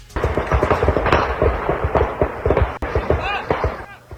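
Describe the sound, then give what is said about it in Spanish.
Bursts of rifle gunfire ring out in avocado orchards as many sharp, rapid reports crack in irregular clusters at loud levels, with voices heard among the shots. “mientras escuchan las ráfagas de armas largas en las huertas”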